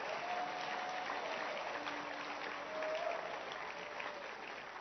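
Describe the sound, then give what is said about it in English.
A church audience clapping their hands: a faint, steady wash of applause with no clear beginning or end and thin sustained tones beneath it. “Clap your hands for her.”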